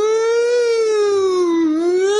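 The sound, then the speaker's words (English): A siren-like wail plays in a film soundtrack during its most intense sequences: a loud, sustained harmonic tone that sways gently in pitch, dips near the end, then climbs again. “Alvarez chose to use a sound of like a klaxon or a siren during the most intense sequences”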